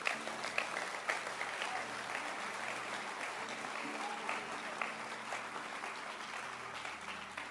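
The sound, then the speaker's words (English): An audience claps hands to welcome a sister at a church gathering: dense, steady clapping that holds at an even level for the whole stretch, with a few sharper individual claps standing out. “Children, let's receive our sister. Children, clap your hands, children.”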